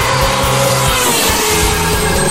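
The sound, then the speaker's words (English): A Red Bull Formula One car doing celebratory donuts, its loud, continuous engine note stepping up and down in pitch as the throttle is blipped and held. “Can I do donut? Donuts will not be required, thank you. Take that as a yes, then.”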